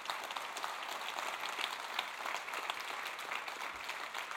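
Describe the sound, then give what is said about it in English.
An audience applauds to welcome a guest up onto a stage, a continuous, fairly faint wash of many hands clapping with no voices over it. “if you put your hands together and welcome Zeri, who's going to come and just spend a little time with me up here”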